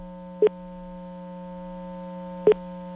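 An outgoing telephone call gives two short electronic tones about two seconds apart, each brief and clear over a low steady hum on the line.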